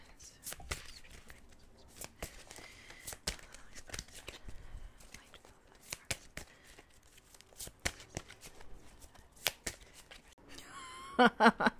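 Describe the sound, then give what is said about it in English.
An oracle card deck is shuffled and a card pulled: faint soft riffles and light taps, sparse at first, ending in a louder flurry of rustling. “And she created this Oracle deck with these beautiful messages from, I call them like, they're healing messages from above. So I'm just going to pull one card.”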